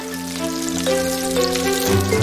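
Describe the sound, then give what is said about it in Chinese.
Lamb skewers sizzle as they are briefly deep-fried in hot lamb fat inside a special iron drum, giving a steady crackling hiss with bright spatter that continues throughout, with sustained musical tones underneath. “肉串短暂预烤，就要放入特制的铁桶中，快速过滚油。”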